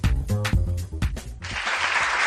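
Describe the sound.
A voice speaks briefly, then audience applause breaks out into a steady, dense wash of clapping that continues to the end.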